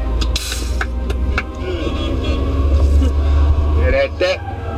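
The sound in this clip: A car drives from Bavaria into Baden-Württemberg with a steady low road and engine rumble. The drone holds throughout while a person talks over it.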